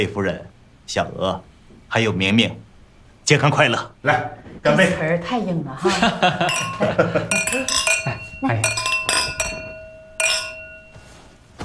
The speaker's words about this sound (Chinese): 来，干杯！